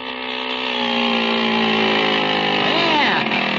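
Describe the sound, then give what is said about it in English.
Steady buzzing drone of a small motor fitted to a bicycle, running continuously at an even, fairly loud level with a rich harmonic hum throughout. “How do you like the motor, Unc? Boy, it runs keen. Oh, pushes the bike right along, does it?”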